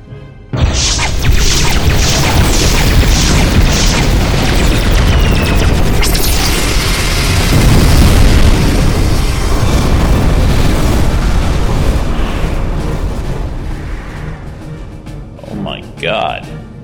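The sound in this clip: Spaceship weapons fire a volley amid explosions, a dense, unbroken roar of booms and blasts lasting many seconds, with rapid pulsed shots early on and a swirling tone emerging near the end as the din thins out.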